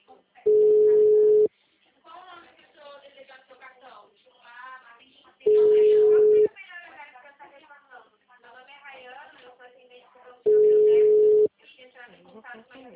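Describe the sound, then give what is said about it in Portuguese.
Telephone busy tone after a dropped call: three steady, mid-pitched beeps, each about a second long and evenly spaced several seconds apart, with voices talking in the gaps between them. “A gente estava iniciando, a ligação caiu. A gente caiu.”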